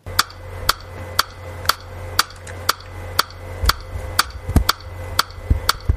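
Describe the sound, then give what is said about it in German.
Metronome clicks from Samplitude recording software: twelve sharp, bright ticks at a steady, even pulse of about two per second, each short and crisp over a faint low hum. “Man kann in Samplitude auch ein Metronom aktivieren. Also das Metronom, das so klingt.”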